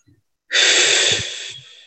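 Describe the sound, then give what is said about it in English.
A single long, deep breath: a loud, airy inhalation lasting about a second, tapering off softly at the end with no talk. “every time we're second guessing ourselves, take a deep breath”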